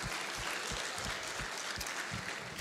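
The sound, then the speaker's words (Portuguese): Steady applause from an audience during a Methodist cathedral church service: dense, continuous clapping that stays loud and even throughout, with no speech over it. “Você pode aplaudir Jesus mais uma vez?”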